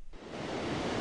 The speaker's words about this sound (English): The noise you hear behind me isn't traffic, it's the ocean coming in at high tide.